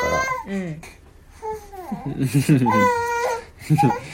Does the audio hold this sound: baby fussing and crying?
yes